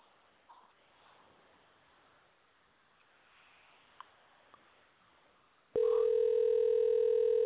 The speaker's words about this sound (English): I'm going to mute myself, and then I'm going to dial out, and same as last time.